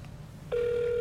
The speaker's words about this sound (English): the phone is ringing.